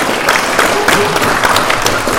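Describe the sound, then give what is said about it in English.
Audience applause at a community meeting, thanking the evening's presenters: dense, steady clapping from many hands that holds a level roar throughout, with no voices standing out. “All right, and can we have another little round of applause for Amy and Dave?”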